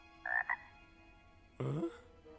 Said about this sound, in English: 2 huge eyeballs appear, and a frog hops into the road.